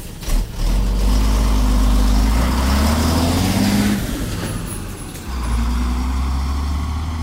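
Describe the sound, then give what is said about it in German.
Heavy road traffic of buses, garbage trucks and lorries makes a loud, steady low engine rumble that dips briefly near the end and then surges back, with no voices. “Und Fahrräder. Alle Fahrzeuge zusammen machen ganz schön Krach.”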